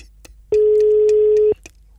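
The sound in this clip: A telephone ringback tone sounds on a call placed to a golf club office: one steady, mid-pitched beep holding for about a second, with a few faint clicks on the line before and after.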